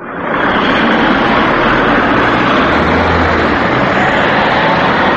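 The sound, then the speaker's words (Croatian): Heavy traffic roars at a traffic light on a busy Belgrade street near Hotel Balkan, a loud, continuous blend of engine rumble and road noise that swells in quickly and then holds steady. “U jednoj od prometnih beogradskih ulica na semaforu kod hotela Balkan razgovarali smo sa vozačima o novim propisima.”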